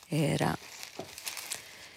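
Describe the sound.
Newspaper pages handled while searching for the front page: after a brief voice, soft papery rustles and crinkles follow in a few scattered bursts.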